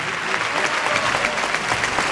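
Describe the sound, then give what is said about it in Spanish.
Applause from a bullring crowd rising to its feet at a bullfight, dense steady clapping that holds at an even level throughout. “la plaza que estalla y se pone en pie aplaudiendo a Roca Rey.”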